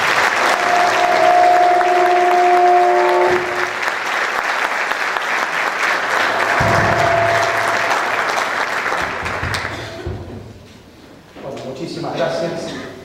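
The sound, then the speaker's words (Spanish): Audience applause welcoming a speaker at a conference: dense, loud, sustained clapping for about ten seconds, with a faint steady tone in the first few seconds, then the clapping thins and fades out. “Fuertes aplausos.”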